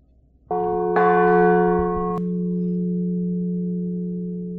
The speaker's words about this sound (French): Donc là, on va écouter le son final que doit donner la cloche. Donc j'ai pris un petit battant, puisque le battant n'est encore pas installé à l'intérieur de la cloche.